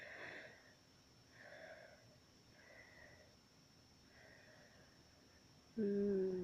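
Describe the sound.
Soft breaths drawn in through the nose, repeated in a slow, steady rhythm: several faint, airy sniffs with quiet gaps between them.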